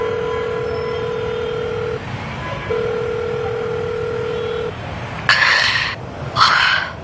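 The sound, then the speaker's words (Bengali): A telephone being dialed for a call: a steady dial tone hums, breaks off briefly and returns, then stops. Two short, bright bursts of tone follow. “রাস্তা পার হয়ে সে একটা phone করল।”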